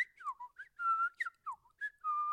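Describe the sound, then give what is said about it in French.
A boy whistling a short tune. Clear, bright notes come in quick gliding phrases broken by a few longer held tones, heard alone. “fourra ses mains dans ses poches et se mit à siffloter.”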